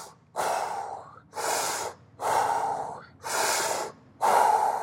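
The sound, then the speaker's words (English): Forceful power breaths drawn in and pushed out through the mouth during a breathwork exercise: five loud, rhythmic, breathy bursts with short pauses between them, no talking. “But what those power breaths should kind of sound like is,”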